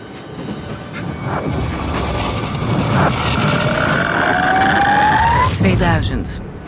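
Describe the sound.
Sci-fi time-machine travel sound effect: a dense, steady whooshing roar with a tone that sweeps steadily upward in pitch, then breaks off into a brief warbling, fluttering burst before fading.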